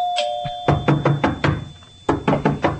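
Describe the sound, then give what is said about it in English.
Aggressive knocking hits a door after a brief ringing tone: two bursts of hard, rapid knocks, each about five blows, split by a short pause. “Aggressive knocker.”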